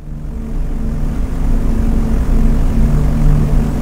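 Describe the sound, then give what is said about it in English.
A formation of B-17 bombers flying, their propeller engines making a steady, heavy drone with a low rumble that holds at an even, loud level throughout, with no voices. “The newly formed bomber formation soared 20,000 feet above the coastal city of Torquay, England, having successfully executed a turn towards the south.”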